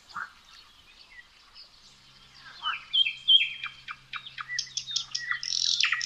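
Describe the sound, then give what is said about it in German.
Birdsong in a forest on a walk, with varied chirps, trills and whistles from several birds, sparse and soft at first, then busier and louder in the second half. “Eine akustische Auszeit, zum Beispiel beim Waldspaziergang.”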